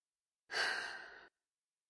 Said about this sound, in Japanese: 大きく深呼吸。